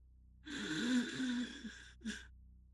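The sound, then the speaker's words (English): A voice imitates an asthmatic wheeze: a strained, raspy, voiced breath that lasts about a second and a half. A short second gasp follows it. “I hear asthma. It sounds... Can I do a medicine check to see how bad of a case of asthma that is?”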